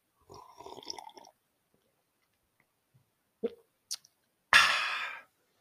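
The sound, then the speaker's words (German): A drink is sipped: a few small mouth and swallowing noises, then a louder breathy exhale near the end. “ich muss noch mal einen Schluck trinken zum Ende hin. Moment.”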